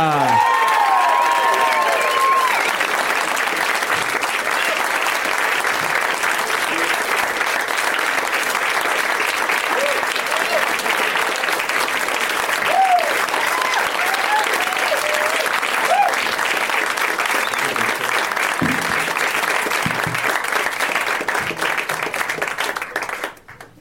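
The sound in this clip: Loud, sustained studio audience applause welcomes a returning winner and other guests onto a show, a steady dense wash of clapping with scattered cheers that holds for over twenty seconds before fading out at the end.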